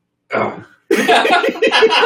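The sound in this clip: A single short, rough cough bursts out during a balance check while a person stands on one leg. It is followed by a stretch of voiced sound.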